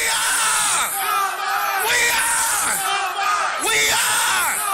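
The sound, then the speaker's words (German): A crowd at a memorial shouts their school's battle cry, a loud, sustained mass of yelling voices that swells in several waves with no pause. “Und bei der Gedenkfeier rufen viele den Schlachtruf ihrer Schule raus.”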